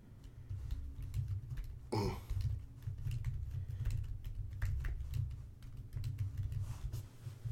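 Typing on a computer keyboard: many quick, light clicks in an uneven but steady rhythm over a low, constant hum, with no talking.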